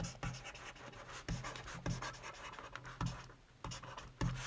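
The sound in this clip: A pen scratches across paper while notes are written, giving a faint run of short scraping strokes and light taps in an irregular rhythm.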